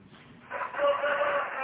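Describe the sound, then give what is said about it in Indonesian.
A rooster crows nearby, one loud, sustained cock-a-doodle-doo rising out of low background noise and holding steady to the end. “Dekat banget ayamnya enggak?”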